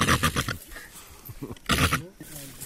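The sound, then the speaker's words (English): A human voice imitates a rhino call with a few rough, guttural grunting bursts: a pulsing run at the start, quieter breathy sounds, then a loud final blast. “entertains us with some more of his animal calls. A rhino,”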